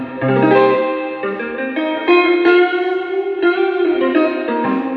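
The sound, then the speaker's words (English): Electric guitar played through a small Harvard Reverb amplifier, its notes and chords ringing out with a heavy reverb wash, changing every half second or so, fairly loud and with no talking. “Whereas this reverb, Harvard Reverb, is small, dainty, and”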